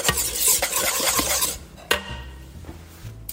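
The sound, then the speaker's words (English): A whisk clatters quickly in a sauce of lemon juice and black pepper, making rapid metallic ticking and stirring. One sharp clink stands out partway through, then the stirring goes on more quietly, with no talk. “Okay, so whisking.”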